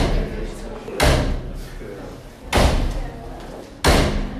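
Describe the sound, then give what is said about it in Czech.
Backstage at an awards event in Hradec Králové, a dressing room door bangs shut three times in loud, sharp thuds spaced over a few seconds, with a low murmur of voices between the slams. “Tak takhle bouchají dveře od čatny Mekyho Žbírky. Pořád tam někdo chodí, zase vychází”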